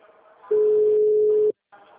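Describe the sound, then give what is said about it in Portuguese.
A telephone tone sounds while a call is placed to a client: one steady, clear tone holds for about a second, then cuts off, with quieter background sound before and after it. “estou ligando para uma cliente, tá? Ela pediu para eu retornar.”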